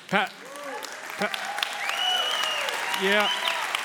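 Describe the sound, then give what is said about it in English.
Applause from a church audience during a Sunday morning service, rising to a steady, moderate clatter of clapping in the second half while a man keeps talking over it. “I didn't say that for applause, okay?”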